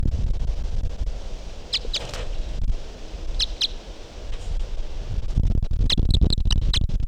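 High, thin chirps from a wild bird in a field recording. Short calls come in a few separate bursts, with a quick cluster near the end, over a steady background of rustling and wind.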